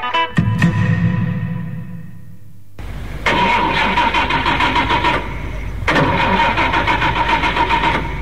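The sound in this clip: Car engine cranking and firing up after stalling: a whirring crank fades out, then the engine catches with a loud rough roar that surges again toward the end, with no voices.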